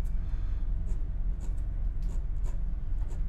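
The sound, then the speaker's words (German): A pen draws the scavenging air slots of a cylinder liner on paper, making faint, scattered scratchy strokes over a low background hum. “Und unten in der Laufbuchse haben wir Spülluftschlitze, die zeichne ich euch hier auch nochmal ein.”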